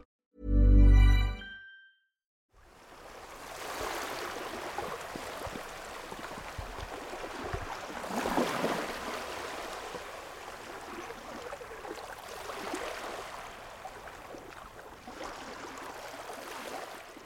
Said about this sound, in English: That sound you just heard was the tide coming in on Bembridge Beach on the Isle of Wight.